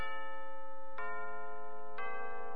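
Radio time-signal chime marking the hour: a sustained, bell-like ringing tone, freshly struck twice about a second apart, each strike clear and steady, with no voices.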